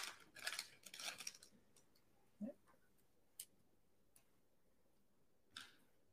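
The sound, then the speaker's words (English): Wrapper of a hockey trading card pack being torn open: a cluster of crisp crinkling and rustling bursts at the start, then a few sparse, soft clicks and taps. Faint overall. “Let me see if this is the same card. See? I'll open up one more while we're doing this.”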